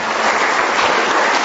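Dense applause from a church audience for brothers from Bao Loc, a uniform crackle of many hands clapping at a steady, loud level throughout.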